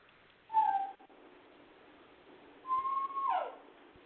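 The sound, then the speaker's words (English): A dog whines in two high, thin cries, a short one and then a longer one that sweeps downward at the end, separated by a quiet gap. The whining is fairly faint and there is no talking. “Your dogs are crying. She does that every night”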